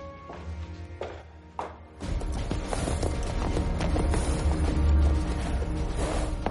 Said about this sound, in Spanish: Juan llega a caballo hasta la comandancia militar.